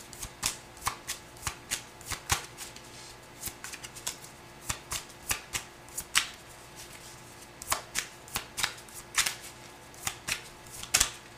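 Tarot cards being shuffled and drawn: many crisp, snapping riffles and flicks in irregular bursts, fairly faint, with no talking.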